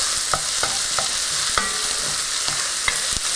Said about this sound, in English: it sounds like the onions are kind of sizzly over here, so I'm gonna give them one more stir.